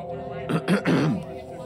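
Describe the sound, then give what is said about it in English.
A man clearing his throat in an audio drama: a few short, rough voiced bursts packed into about half a second, standing out over a faint steady hum. “Larry cleared his throat to get Wilbur's attention.”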